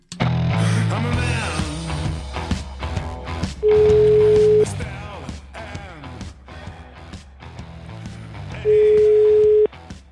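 Ringback tone of an outgoing telephone call being dialed: two long, steady, mid-pitched beeps about five seconds apart over a dense, busy background.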